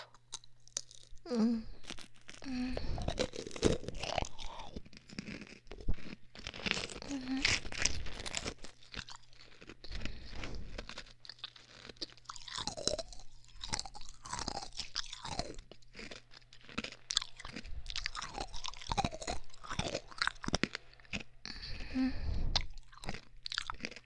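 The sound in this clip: Quiet chewing and crunching of peach-flavoured food: many soft, irregular crunches and wet mouth sounds, with brief pauses between bites.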